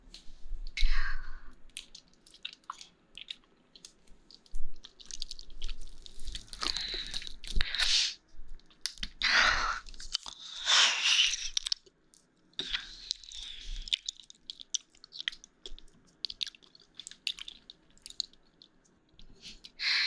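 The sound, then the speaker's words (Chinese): Someone chews and eats food with wet, squishy, crunchy mouth sounds arriving in irregular bursts and pauses, moderately loud and close throughout. “还是第一次吃这个味道吧，这个味道我很喜欢。”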